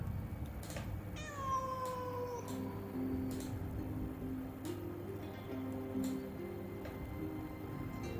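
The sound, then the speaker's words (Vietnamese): A wild cat yowls at night: one drawn-out, wavering cry that slides down in pitch, over a low steady background marked by a few soft clicks. “canh ba tới, mèo hoang gọi”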